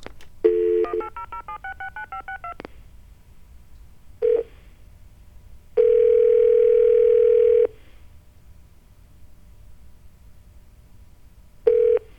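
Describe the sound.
Touch-tone telephone dialing of a toll-free number: a rapid run of short keypad beeps, then a few separate tone bursts, including one long steady tone, with quiet gaps between them.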